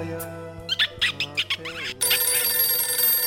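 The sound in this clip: A telephone ringing with many rapid, high chirping bursts of a bell, layered over a low steady hum, then giving way to a denser, brighter wash of sound.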